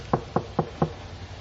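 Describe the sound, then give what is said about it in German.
Knocking on a door: four even, sharp knocks in a steady rhythm, fairly faint, with no voices. “Nach ungefähr 2 Tagen klopft es an seiner Tür.”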